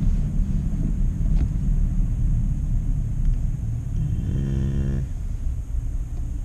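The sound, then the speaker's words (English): A car driving around the block gives a continuous low engine and road rumble throughout. A brief humming tone rises out of the drone late on, and no one talks. “Okay, let me drive around the block.”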